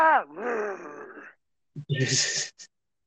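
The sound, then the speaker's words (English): A man's voice imitates zombie noises: a long guttural groan sliding down, a pause, then a harsh, hissing rasp of a snarl ending in a short breathy gasp. “He did all the noises for the zombies. And the footage of him just standing in a sound booth just going...”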